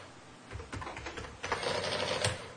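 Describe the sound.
Faint typing on a computer keyboard, a quick, irregular run of soft clicks and taps with no voices.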